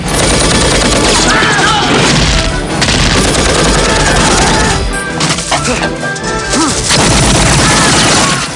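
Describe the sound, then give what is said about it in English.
Machine-gun fire in a Rambo film battle against Russian troops and Afghan horsemen, a dense, loud barrage of rapid shots mixed with crashes and booms that barely lets up for the whole stretch. “Rambo flanks the Russian troops and picks them off with his machine gun. A gunner opens fire on the Afghan horseman.”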